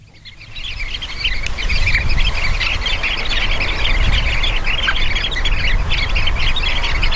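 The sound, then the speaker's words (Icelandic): Sanderlings (Calidris alba) calling in a flock: many high, shrill chirps and squeaky calls overlapping in a continuous chatter, loud and steady over a constant low rumble. “Calitris alba. Já, Calitris alba og ég held að við ættum jafnvel bara að vinda okkur í hljóðið.”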